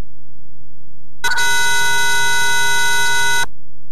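A harsh, steady buzzing tone rich in harmonics sounds for about two seconds as a caller's phone line cuts off, starting and stopping abruptly over a low hum.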